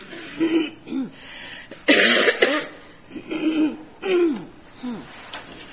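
An asthmatic lawyer coughs during a court argument: several harsh, hoarse coughs and throat-clearing bursts come in irregular spurts, with one louder, longer fit near the middle.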